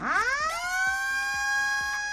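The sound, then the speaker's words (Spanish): A 2,400-watt emergency alert siren sounds from a safety tower during a test in an industrial valley. It winds quickly upward in pitch, then holds a loud, steady wail over faint, regular low pulses. “Valle de Escombreras, unas sirenas que tienen una potencia de 2.400 vatios con la finalidad de llegar a toda la población del entorno”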